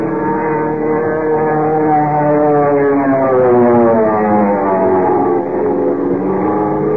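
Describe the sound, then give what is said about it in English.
An airplane in a power dive roars, its motor droning loudly beneath a wavering, siren-like whine of wind screaming through the struts, sustained and unbroken throughout. “Without warning, it went into a power dive, hurtling down on Kent, Jimmy, and the commissioner like some giant bullet, motor roaring, wind screaming through the strut.”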